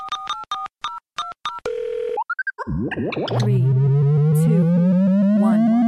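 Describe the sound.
Telephone call on hold being put through: a quick run of short dialing beeps and a steady tone, then sweeping, bouncy electronic tones that lead into a long, continuous rising hum.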